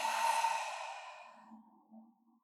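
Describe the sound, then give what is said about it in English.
A deep cleansing breath during a group breathing exercise: one long, breathy exhale that starts full and gradually fades over about two seconds, followed by faint low rustling. “a big cleansing breath in through the nose and out of your mouth.”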